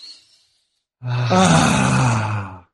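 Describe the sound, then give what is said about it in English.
A deep, voiced breath taken to clear the mind during a guided exercise, drawn out as a long sighing exhale of about a second and a half that fades at the end. “Let's take a breath to clear our mind. Here we go.”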